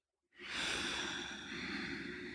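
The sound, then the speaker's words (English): A big, deep breath starts abruptly after a moment of silence and continues as one long, steady, airy rush that runs to the end without a break. “That was a nice big kind of breath there.”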